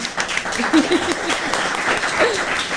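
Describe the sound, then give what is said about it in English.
An audience claps at a student question-and-answer event. The applause is moderately loud and uneven, with bursts of clapping that rise and dip over the few seconds. “Thank you. Thank you. A round of applause.”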